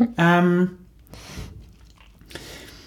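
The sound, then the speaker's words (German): Someone eats nuts: a brief voiced sound, then a few soft, crunchy chewing bursts with quiet, moist mouth noise between them. “Ich esse, falls ihr irgendwie das komisch sich anhört, ich esse hier nebenher ganz leckere Nüsse, die hier noch hier bereitstehen.”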